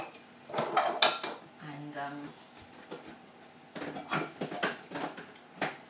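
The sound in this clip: Metal tins clattering as they are sorted into recycling at home, with a couple of sharp clanks early on and a busier run of knocks and rattles in the second half.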